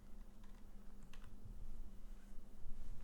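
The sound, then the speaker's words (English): Faint, rapid computer keyboard typing clicks sit beneath a steady low background hum. “Could you type slower?”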